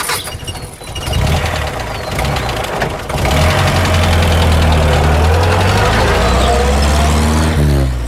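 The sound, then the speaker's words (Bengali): Two car engines starting and setting off together: a rough, knocking engine rumble that jumps louder after about three seconds, then settles into a steady, loud driving drone. “ঠিক সোয়া ছটার সময় আমাদের গাড়ি দুটো একসঙ্গে রওনা দিল”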